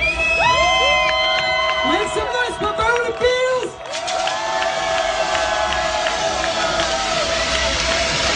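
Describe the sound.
A concert crowd cheering loudly to welcome a band, with high whoops and screams over a dense, continuous roar that carries on throughout.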